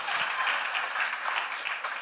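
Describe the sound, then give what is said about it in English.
An audience claps in soft, steady applause, a thin wash of many hands that stays even and fairly faint throughout. “If you are going to clap, you just got to commit to it.”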